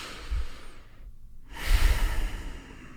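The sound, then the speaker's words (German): Slow, deep breathing during a guided relaxation exercise: soft, airy rushes of breath with a short pause in between, unhurried and moderately loud, with no talk. “Nehmen noch mal einmal 2, 3 tiefe Atemzüge.”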